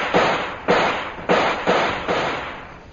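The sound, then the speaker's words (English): Five gunshots fired in a defensive fight, evenly spaced booming thuds about half a second apart, each one decaying quickly before the next. “We'll start firing again.”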